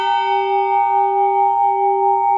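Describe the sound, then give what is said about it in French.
A new church bell, tuned to harmonize with an older bell, rings a sustained G note. The clear, steady tone and its layered bright overtones hold evenly throughout, with no voices. “Ah, c'est bien sol, moi voilà. J'ai l'oreille absolue, je vais vous le dire. Et il y a une troisième cloche déjà, enfin une deuxième cloche pour le moment, dans le mur clocher d'Estey”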